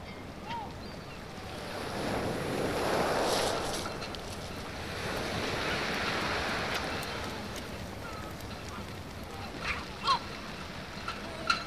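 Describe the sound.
Calm sea waves on the Brittany coast wash in a soft, continuous hiss that gently swells and fades, with a low rumble of wind. A few faint clicks are heard near the end.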